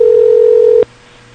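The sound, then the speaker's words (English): A call to a phone number rings out as a loud, steady mid-pitched tone that cuts off abruptly with a click, leaving a faint low hum. “Calling people on their phone numbers.”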